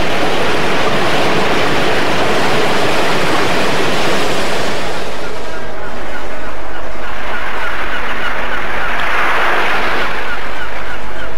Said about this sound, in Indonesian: Bagaikan dikendalikan oleh kekuatan halus, ombak itu kemudian naik jauh ke tengah daratan, mengejar seluruh anak murid dari perguruan Tangkuban Perahu.